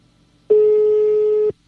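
A telephone call to a prize winner sounds as one steady, loud telephone tone about a second long, starting and stopping abruptly over quiet background.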